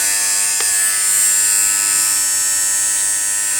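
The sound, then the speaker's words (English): A corded electric fabric shaver runs with a loud, steady high-pitched buzz, its motor drone holding an even pitch and level throughout, with no talk over it. “You can hear that. That's a loud one. You can hear that power. This is different than my other fabric shavers. I think maybe since it's not battery operated, it might have a little bit more power.”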